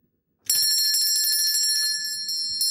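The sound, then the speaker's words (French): A small hand bell rung in a stage comedy, a bright, high, shimmering ring that starts abruptly and carries on steadily for a couple of seconds with a continuous metallic trill, heard alone. “Et ma sonnette ne fait pas assez de bruit.”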